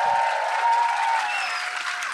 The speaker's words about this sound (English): So put him down and say a massive round of applause to Sarah for bringing our brilliant.